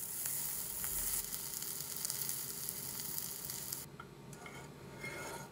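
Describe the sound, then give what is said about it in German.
Bacon cubes and fresh grapes sweat in a pan with a continuous bright sizzle of frying, loud and even throughout. The crackle thins slightly toward the end. “Dann dürfen Speckwürfel mit frischen Trauben anschwitzen.”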